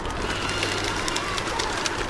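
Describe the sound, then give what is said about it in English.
A flock of multicolored birds takes off together in a city park. Their wings make a dense, steady rush of flapping, broken by repeated bursts of fluttering. “Wild flapping erupts from a city park. A flock of multicolored birds lifts off together, circles, and settles again.”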